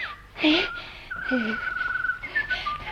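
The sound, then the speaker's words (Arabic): A whistled, birdlike call of a karawan (stone-curlew) in a drama: short warbling phrases around one long, steady high note, with fainter whistles before and after. “يا خبر، ده الطير الكروان. اما استخبى هنا ورا اللوان واشوف الكروان ده ايه.”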